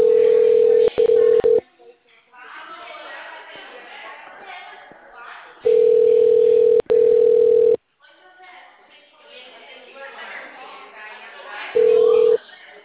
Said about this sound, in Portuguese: vou desligar aqui e vou tentar ligar novamente pra você, tá?